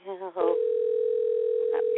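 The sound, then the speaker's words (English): A telephone ringing tone on the caller's end as a call is placed: a steady, single-pitched tone that holds after a brief stretch of talk, with another short voice partway through. “It's ringing for me in my”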